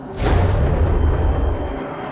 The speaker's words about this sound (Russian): Одновременно с этим он услышал мерный шум заработавшего реактивного двигателя.